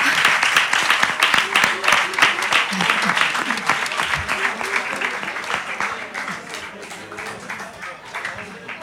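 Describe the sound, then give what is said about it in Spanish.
Audience applause at a radio project presentation: dense, steady clapping that lasts about nine seconds, with some voices mixed in, easing slightly toward the end. “Vale, pues yo creo que con esto podemos dar un aplauso.”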